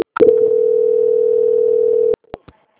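A telephone call transfer tone sounds as one steady, mid-pitched continuous tone lasting about two seconds, followed by two short, faint blips.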